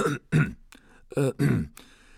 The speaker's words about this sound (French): Monsieur Dursley, un peu nerveux, s'éclaircit la gorge.